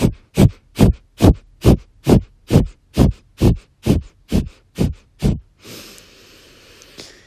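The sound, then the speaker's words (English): Kapalabhati breath of fire: a rapid, evenly spaced series of sharp, forceful breathy exhales pumped out through the nose, followed by a softer, longer breath. “And I really love the practice of Kapalabhati, breath of fire. And that is the fast, sharp, forceful exhales followed by a neutral inhale.”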